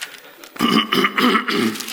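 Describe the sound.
Someone clears phlegm from the throat in a few harsh, guttural rasping bursts that come in quick succession with short gaps between them.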